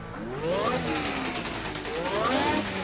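A Formula 1 racing car engine revs, tied to a Grand Prix weekend in Baku, Azerbaijan: a loud, continuous, buzzy engine roar whose pitch sweeps upward twice as the revs climb.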